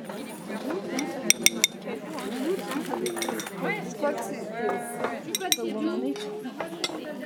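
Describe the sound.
Dishes and cutlery clink as plates are shifted to clear space on a kitchen counter during a cooking session. A few sharp clinks and scrapes are scattered under ongoing talk.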